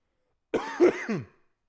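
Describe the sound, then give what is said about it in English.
A cough, with a few rough, throaty bursts in a short cluster that is moderately loud and heard alone before fading out. “I still have this cough. It sucks.”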